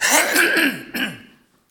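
Throat clearing from a froggy, hoarse throat: a long, raspy, voiced rumble, a brief break, then a shorter second grunt that fades into silence.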